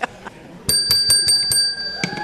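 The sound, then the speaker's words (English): A bell rung to mark a success after a repair, heard as a rapid run of bright, high metallic rings whose tone lingers, followed by one more ring after a short pause. “Now running again, a bell was rung to mark the success.”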